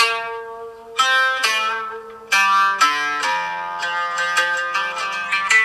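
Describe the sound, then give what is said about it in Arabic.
A melodic ringtone tune meant for an iPhone: many bright, bell-like synthesized notes with sharp attacks, stepping up and down in a lively pattern with ringing decays, loud and clear and without talk. “عايزين يحطوا النغمة دي نغمة رنين على الايفون.”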